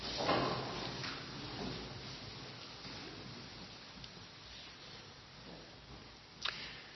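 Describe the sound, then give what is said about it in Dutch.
Rustling and shuffling of a church audience rising to its feet for the closing blessing of a service. A soft, continuous scuffling murmur stays fairly quiet throughout, ending with one short, sharper knock. “En dan wil ik graag de dienst afsluiten en ook de zegen uitspreken. Dus ik wil u vragen daarbij te gaan staan.”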